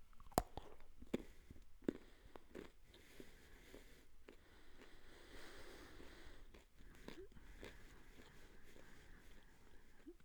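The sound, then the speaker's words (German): Someone bites into a goosefoot-family plant food. A few sharp, crunchy bites come early, then soft, steady chewing with faint breathing through the nose. The sounds are quiet and close. “So, ich beiß dann mal rein.”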